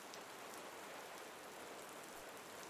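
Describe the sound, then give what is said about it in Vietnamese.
Heavy rain falls as a dense, even hiss of countless drops, steady and continuous with no pauses, fairly soft in level throughout. “Mưa vẫn rơi ngày một nặng hạt, đến mức rơi rác cả mặt cô.”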